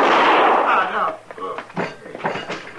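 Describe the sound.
A gunshot in a radio western drama: one loud, harsh blast that rings for about a second, followed by people talking.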